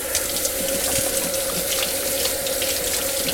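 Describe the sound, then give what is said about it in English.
Water runs steadily from a tap while greasy hands are washed at a sink. A loud, even rushing hiss holds for the whole stretch, with a faint steady hum underneath and no voices. “My hands are nice and greasy now, so let me wash those real quick.”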